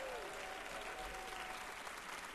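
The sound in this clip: Audience applauding in welcome of a visiting college group at a church ministry gathering: dense, continuous clapping from many hands at an even level from start to finish.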